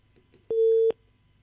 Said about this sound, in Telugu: Call cut అయిందండి.